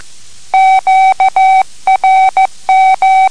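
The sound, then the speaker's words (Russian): Morse code sending QRZ, the signal asking who is calling: a clean, steady beeping tone cut into dashes and dots with tidy spacing, loud and with no voices. “Фраза «Кто меня вызывал?» звучит так. QRZ.”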